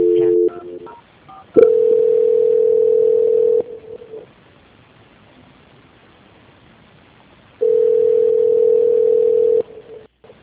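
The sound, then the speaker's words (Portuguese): Telephone line tones play during a call transfer: a few short beeps, then two long, steady, loud hold tones of about two seconds each, separated by a stretch of quiet line hiss. “E eu peço que o senhor aguarde em linha que eu vou fazer a transferência da ligação, tá bom?”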